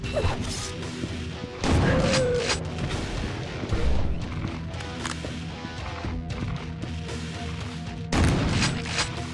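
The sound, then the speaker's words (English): Machine gun fire and crashing impacts in a video game, with several loud bursts breaking out over a continuous din of shots and blasts. “Seems his machine gun is pretty useless when you're at a different elevation.”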